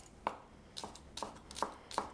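Knife chopping spring onions and pickled ginger on a board for a smoked tofu salad: a few crisp, faint, evenly spaced chops with quiet pauses between them.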